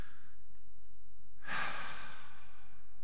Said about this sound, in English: Stop, and I just take a deep breath.